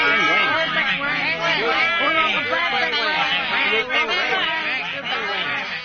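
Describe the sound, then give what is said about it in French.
A flock of penguins calls in a dense, loud chorus of overlapping squawks and brays that rise and fall in pitch without pause. “Nous ne pouvons parler très fort, car comme vous pouvez vous en apercevoir, chers auditeurs, le bruit du troupeau de pingouins est intense.”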